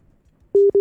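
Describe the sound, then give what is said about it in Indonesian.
Telephone busy tone after a call is cut off: two short, steady mid-pitched beeps rising out of near silence, loud and clean. “Terputus sepertinya ya. Kita coba terhubung kembali.”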